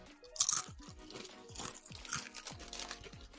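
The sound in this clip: Crunching of Lay's yogurt and herb potato chips: several crisp, brittle crunches come in quick irregular bursts, fairly faint, with soft chewing between them and no talking.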